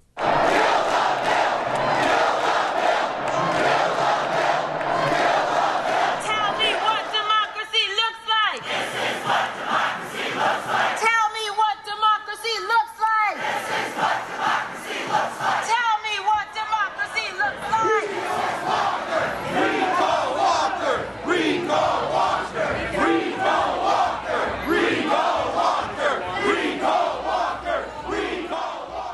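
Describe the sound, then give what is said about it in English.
Act 10 protesters chant at the Wisconsin Capitol, a huge crowd shouting in loud rhythmic waves. The chants break off briefly twice before surging back into sustained, overlapping roaring. “Now, as we remember, Act 10 drew tens of thousands of protesters to the Capitol, people who were passionately opposed to Act 10. And here's a clip of sound from that from 3 years back.”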